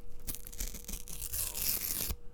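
A sheet of paper is ripped in one continuous, rough tearing sound lasting about two seconds, then stops abruptly.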